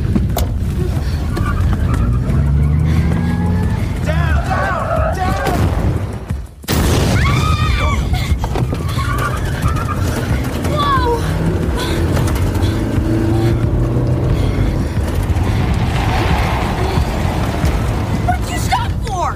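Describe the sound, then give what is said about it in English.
A tank comes over a hill toward the listener, a loud, continuous, heavy low rumble of engine and tracks. The rumble cuts out briefly partway through, then returns just as strong. “A short distance away, just over the hill, a tank appears. It's moving straight towards us.”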